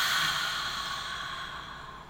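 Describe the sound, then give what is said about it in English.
A deep breath is released at the end of a guided breathing exercise: a long, steady, airy rush of exhaled air that slowly fades, with no talking. “Let's take a final deep breath in and release.”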